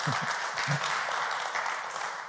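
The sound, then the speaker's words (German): Audience applause during a church service: a dense, steady wash of many hands clapping, holding an even loudness from start to finish. “Da wäre ein Applaus eigentlich fällig.”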